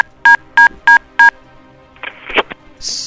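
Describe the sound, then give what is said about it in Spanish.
Telephone tones from a phoned-in call that gets cut off: four evenly spaced electronic beeps, then a short burst of crackling noise and a steady high tone at the end. “Se le cortó su llamada, pero el sentido estaba bien”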